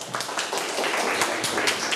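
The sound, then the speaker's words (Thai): A class of students claps for a classmate, a short burst of many uneven claps that stays fairly quiet and lively, with no voices over it. “โอเคปรบมือให้เบนนี่หน่อยลูก”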